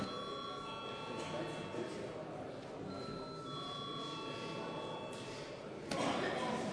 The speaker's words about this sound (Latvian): Lūdzu zvanu.